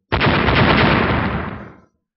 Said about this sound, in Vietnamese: Lại là một chuỗi âm thanh nổ tung cực lớn vang lên